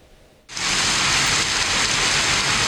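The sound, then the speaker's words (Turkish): A heavy rain downpour with hail begins suddenly after a brief quieter moment, then becomes a loud, dense, constant hiss that holds without letting up. “Yurdun bazı noktalarında sağanak ve dolu etkili oldu.”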